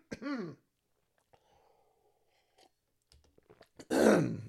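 Throat clearing comes from a person pausing while reading scripture aloud: a short voiced rasp, then a quiet gap with small clicks, then a harsher, louder clearing burst.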